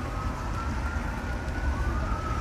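Police sirens in Ontario, Canada, sound as a faint, steady high wailing tone that runs throughout under a loud, constant rumbling background noise.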